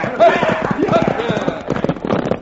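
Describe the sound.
Horses galloping, their hooves clip-clopping in a rapid, continuous beat that stays loud throughout, mixed with other sound.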